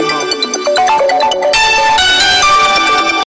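A telephone ringtone plays as a call to a customer service line connects: a bright electronic melody of stepped tones, then sustained ringing chords, loud and alone.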